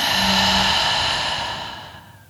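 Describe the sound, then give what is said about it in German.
A long, breathy exhale through the mouth during a guided breathing exercise with raised arms. The airy rush is steady at first, then gradually fades away, with no talk. “atme tief ein und atme durch den Mund aus”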